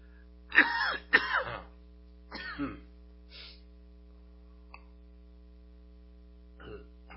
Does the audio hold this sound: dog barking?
no